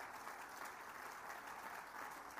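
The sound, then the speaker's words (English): Audience applause fills an awards ceremony as the five shortlisted nominees are honoured: a steady, dense wash of many hands clapping, even in loudness from start to end. “Round of applause for your 5 shortlisted top 5.”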